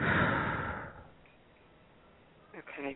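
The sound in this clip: A long, forceful breath is blown out during a guided breathing exercise. It is loud at first and fades over about a second, then quiet follows and a voice begins.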